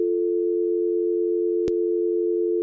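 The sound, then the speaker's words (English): A telephone dial tone, made by combining two tone generators, holds as a steady, unbroken mid-pitched hum with a brief click partway through. “Now, if we do it together, and that's your dial tone.”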